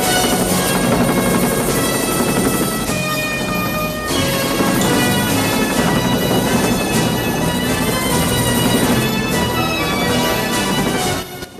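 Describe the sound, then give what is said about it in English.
A helicopter banks hard toward a tarmac while spilling smoke, then makes a rocky landing in a jungle setting from a Rambo film; a dense, loud, steady rotor roar holds throughout before dropping off sharply at the very end. “Troutman spots Rambo approaching. The chopper banks hard towards the tarmac, spilling smoke.”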